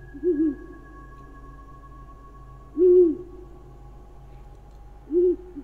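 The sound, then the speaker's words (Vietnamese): A scops owl perched atop a broken bamboo stalk gives three mournful, hollow hoots, widely spaced and evenly pitched, over a faint steady hum. “Con cú mèo im lìm đậu trên ngọn cây tre đã gãy, rồi nó gào lên mấy tiếng ai oán, tung cánh bay vụt đi.”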